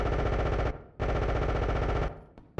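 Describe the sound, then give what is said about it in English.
Automatic gunfire in a firefight: two long, loud bursts of rapid shots separated by a short pause, with an echoing tail after each and a brief final burst. “Contact. Open fire.”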